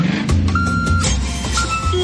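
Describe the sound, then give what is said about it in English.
A delivery truck sounds reversing beeps: a few steady, mid-high electronic beeps over a low engine rumble. The beeps are moderately loud, and no one speaks. “Can you hear that? That's the sound of truckloads of new entertainment being delivered on Foxtel.”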